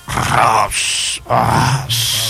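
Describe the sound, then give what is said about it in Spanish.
A voice imitates a person snoring like a pig: two loud cycles, each a rough, low grunting snort followed by a higher, airy wheezing tone. “Te parecía como un puerco, una persona. Digo yo, me pusieron uno al lado ahí a roncar.”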